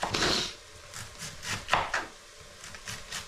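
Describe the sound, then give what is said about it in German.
Knife cutting very thin slices on a board, a few soft, brief strokes and scrapes spaced irregularly, fairly faint and heard alone. “Einfach dünne, sehr dünne Scheiben schneiden.”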